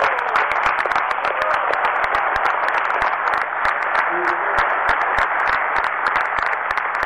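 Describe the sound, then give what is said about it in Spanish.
Applause from an audience at a gathering of popular movements, a steady dense wash of clapping holding at an even level throughout, with no break or swell. “voy a pedir un aplauso para el compañero Miguel”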